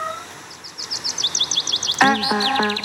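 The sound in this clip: Birds chirp in a played recording of acoustic music for piano and strings: quick, bright chirps repeat rapidly, then sustained instrumental tones enter partway through and play beneath them.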